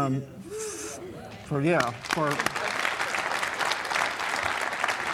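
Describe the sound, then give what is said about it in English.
A church audience applauds the praise and worship team. A man speaks over low noise at first, then loud, dense applause from many people swells up and carries on to the end. “with y'all's permission, I will applaud the praise and worship team”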